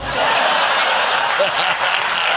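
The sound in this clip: Audience applause at a comedy show, loud, continuous clapping that stays even throughout the short stretch.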